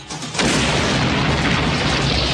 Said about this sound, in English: That was a bomb?